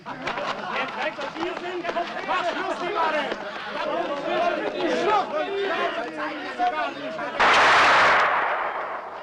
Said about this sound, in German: mit dem Gewehr trifft man jedes Mal. Wir werden jetzt aufeinander schießen.